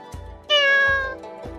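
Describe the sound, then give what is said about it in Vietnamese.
A black cat with red eyes gives a single drawn-out meow, a clear, tonal cry with rich harmonics that holds steady for well over half a second before fading. “Mèo đen thấy Triển Chiêu và Bạch Ngọc Đường đi đến, đột nhiên kêu một tiếng.”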